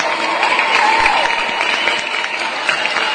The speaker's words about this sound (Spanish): ¡Aplausos!